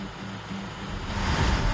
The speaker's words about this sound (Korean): 무서운 기세로 밀려오는 파도. 배가 심하게 요동치는데요.